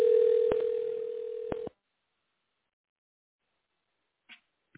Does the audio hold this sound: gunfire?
no